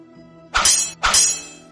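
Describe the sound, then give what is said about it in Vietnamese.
Metal blades clashing in a sword fight: two sharp, bright metallic strikes in quick succession, each ringing briefly before fading. “Một loạt âm thanh của kim thiết va chạm bỗng vang lên khiến Liễu Hận giật mình.”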